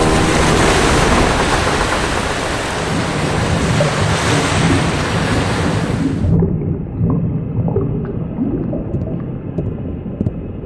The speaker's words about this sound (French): Une vague va nous engloutir! Accrochez-vous!